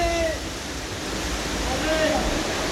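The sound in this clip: Rushing water under high pressure in a sewer collector makes a steady, dense roar that holds at an even level throughout. Faint thin whining tones drift over the top now and then.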